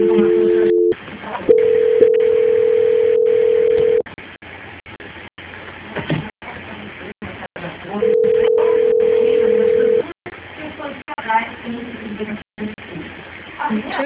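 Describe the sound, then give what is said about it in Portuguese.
Telephone line tones play while a call is being transferred: three long, steady, loud tones, the first a brief dual tone, with noisy line sound filling the gaps between them. “o senhor aguarde na linha, que eu vou fazer a transferência para o controle de qualidade e vou dar andamento à contratação do senhor”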